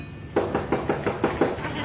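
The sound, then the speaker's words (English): Sharp knocks on a door in a pirate captain's scene: a steady series of evenly spaced raps, fairly loud and crisp, with no voices over them. “The captain paces, his hand grasping his cutlass as there is a knock on the door.”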